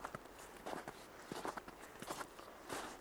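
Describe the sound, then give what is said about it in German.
Footsteps crunch through snow on a walk behind a childhood home. A steady rhythm of soft, crisp steps repeats at an even walking pace. “mache einen Spaziergang im Schnee hinter dem Haus, in dem ich aufgewachsen bin.”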